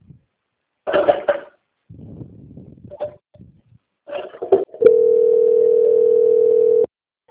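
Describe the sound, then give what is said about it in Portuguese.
A single steady telephone tone holds for about two seconds while a bank call is being transferred. A few rough cough- or throat-like noises come before it. “Só um minutinho que agora eu vou transferir a sua ligação, tá? Para concluir.”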